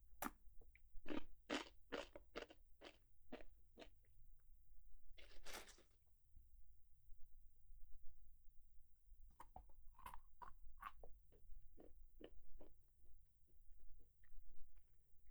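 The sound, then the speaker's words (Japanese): Faint, crisp crunching from chewing Japanese rice crackers (senbei): a rhythmic run of bites, a brief pause, then another series of crunches. “こうやっておせんべいだけ食べてもいいし、”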